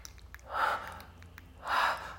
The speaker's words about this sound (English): As I start to struggle a little, you let go of my throat so I can gasp for air.